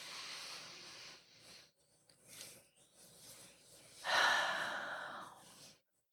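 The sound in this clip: Deep, slow breaths taken during a guided pause in a talk about miscarriage at home: a few long, airy breathing sounds, with the fullest one near the end, separated by quiet gaps and with no speech.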